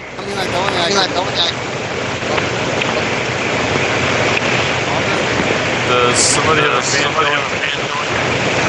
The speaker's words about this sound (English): Does somebody have a fan going? I mean, I do. I do hear the... Is that loud? Yes, it like overtook everything.